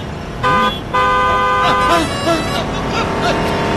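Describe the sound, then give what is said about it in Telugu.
A car horn honks twice in a short, bright tone, the second blast longer than the first, while people talk over traffic noise. “నీ car చల్లకుండా కాస్త నెమ్మదిగా పోనీవయ్యా. నేను స్లోగానే వస్తున్నా master గారు. మీరే కంగారుగా నడుస్తున్నారు, హారన్ కొట్టినా మీకు వినిపించడం లేదు.”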